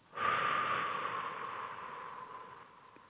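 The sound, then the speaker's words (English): A deep breath out during guided relaxation: one long, breathy exhalation that starts strongly and slowly fades over about three seconds, heard alone without talk. “I want you to take another deep breath in. And as you breathe out, I want you to release all thoughts and tension,”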